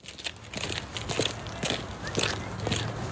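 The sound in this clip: Footsteps walking along a path in a woodland park in The Hague, a steady run of soft, crunchy treads at an even walking pace.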